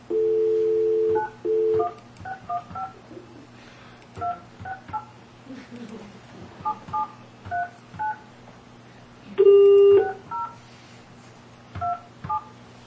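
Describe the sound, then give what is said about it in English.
Telephone keypad tones as a number is dialed for an outside line: many short electronic beeps of varying pitch in quick clusters, with a few longer, louder tones among them. “Did you dial the 9? You have to dial the... I did. Okay. Well, try it again.”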